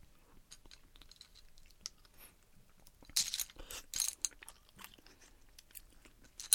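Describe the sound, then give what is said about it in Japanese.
Chewing and biting on a plate of clams steamed in sake: soft, faint crunches and small wet clicks come in a loose, uneven run that grows busier partway through, with no talking. “じゃあこのあさりの酒蒸しちょっといただきましょういただきます”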